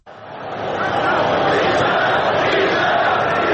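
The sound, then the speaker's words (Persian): A dense football crowd chants "bisharaf" in unison at a match, the roar quickly swelling and then holding loud and steady. “مثلا این صدایی که الان میشنویم مربوط به گزارش انگلیسی مسابقه است که صدای بیشرف بیشرف تماشاگران خیلی واضح به گوش میرسه.”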